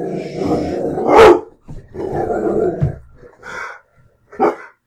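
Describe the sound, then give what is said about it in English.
A dog barks a few times, loud and jarring, in uneven bursts separated by short pauses. “That's my dog's turn to bark. My dog's bark's a little more jarring than yours.”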